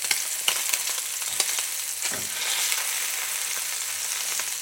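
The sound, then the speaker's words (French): Meat frying gently in a pan, with a steady soft sizzle and hiss and a few scattered crackles and pops near the start. Nobody talks. “Voilà, ça c'est fait. Ma viande cuit gentiment.”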